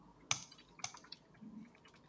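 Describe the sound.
Faint typing on a computer keyboard: a few sparse, sharp key clicks with uneven gaps, alone with no voices.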